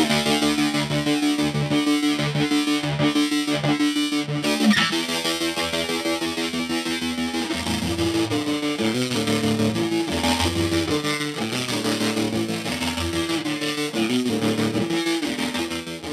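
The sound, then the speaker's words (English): An electric guitar runs through an Old Blood Noise Endeavors White Cap dual tremolo pedal, its distorted chords chopped into quick rhythmic pulses that throb steadily, then shift into busier, washy phrases, loud and continuous without talk. “our good friends at Old Blood Noise Endeavors. Yeah. And put their latest White Cap dual tremolo pedal on there.”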